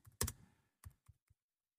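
Keyboard typing: a few faint, irregular clicks and taps separated by short pauses, with no voices.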